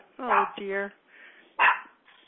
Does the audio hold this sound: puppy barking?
yes